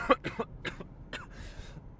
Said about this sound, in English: The rain's got me coughing now.